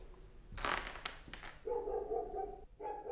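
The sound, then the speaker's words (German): Dog barking: a few loud, rough barks in the first half, then longer tonal yelps, with no talk. “der Mino bellt schon wieder. Nie, lass ihn bellen.”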